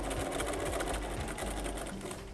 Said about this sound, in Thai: แล้วเราก็วางลงเราก็เย็บนะคะมันถึงจะเย็บได้สุด